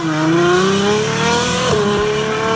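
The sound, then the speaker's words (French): Engine of a fast-moving car, a loud, continuous droning roar with strong tonal harmonics that holds steady throughout, heard alone without voices. “C'est le bruit d'un moteur, ça.”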